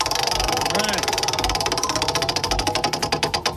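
A prize wheel spins during a country music trivia game, its pointer giving a rapid, even stream of ticks that spread further apart as the wheel slows near the end.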